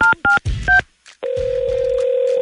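Phone keypad tones dial a call to a bakery: a few short, clipped dual-tone beeps, a brief gap, then a steady unbroken tone holding to the end.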